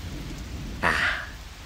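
Heavy rain falls as a steady hiss, and a sharp thunder crack bursts in partway through, then fades back into the downpour.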